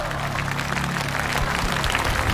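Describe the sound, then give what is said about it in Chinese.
An audience applauds for the band at a music performance, a dense, steady wash of clapping that holds at a loud, even level throughout. “让我们把掌声送给电声乐队总监刘卓和乐手老师们。”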